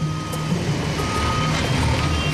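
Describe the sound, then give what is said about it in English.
Repeated high, steady reversing beeps from a bulldozer backing up while clearing a road alongside a backhoe. The beeps sit over a dense, rumbling wash of heavy-machinery engine noise. “The bulldozer's backing up and pushing stuff off to the side.”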